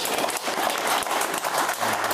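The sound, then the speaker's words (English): Polite applause from a live audience, a dense and steady wash of many hands clapping at a moderate level throughout, with no single voice standing out. “A polite clap. Go on, then.”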